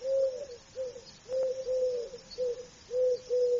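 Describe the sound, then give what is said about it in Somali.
A dove coos in a series of soft, low tonal notes. Short phrases repeat at a steady pace over a faint background hiss. “Waa qooley.”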